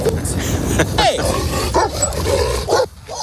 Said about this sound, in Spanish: Perros que le siguen, perros que le ladran, que lo escoltan o que casi acaban bajo las ruedas.